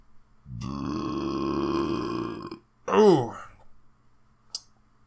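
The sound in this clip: A long, loud, voiced burp drones for about two seconds. A shorter throaty vocal burst follows, and then a faint single click.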